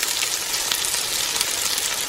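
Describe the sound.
Food sizzles in a hot frying pan: a dense, steady, crackling hiss that stays even and continuous throughout, heard alone with no talking.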